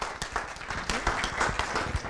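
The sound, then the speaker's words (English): Audience applause welcoming two missionary speakers on a mission to Puerto Rico: dense, steady clapping from many hands, fairly loud and even throughout. “And so would you give them a hand? Now let's welcome Daniel and Yolanda.”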